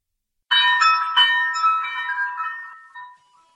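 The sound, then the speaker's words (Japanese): A cowbell hanging on a door rings as the door opens: a few bright metallic clangs close together, then a shimmering ring that slowly fades away. “カウベルが鳴った。”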